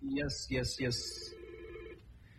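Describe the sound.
A telephone rings in a radio studio as a caller comes in, with a few bright trilling bursts followed by a steadier tone, while people talk.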